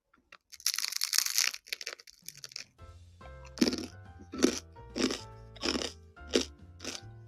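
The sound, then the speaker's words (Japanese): Bread is eaten, first with a brief crinkly rustle, then a steady run of crisp, crunchy chews, each bite sharp and distinct. “パンがそろそろ食べ終わる。”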